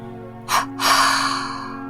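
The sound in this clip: Two short, breathy exhales during a relaxation breathing exercise, released after the breath is held. The first puff is brief and the second is longer and trails off. A steady soft tone hums underneath throughout.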